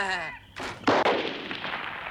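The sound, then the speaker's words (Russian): A revolver shot knocks the lock off a chest: a sharp, fairly quiet bang near the middle with a noisy decay that lingers afterward. “Выстрелом из револьвера Генри сбивает с сундука замок.”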